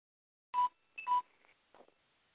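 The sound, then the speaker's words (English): A mobile phone beeps as its battery dies: a few short, faint electronic tones in quick succession, separated by brief gaps of quiet. “that was the sound of my phone dying”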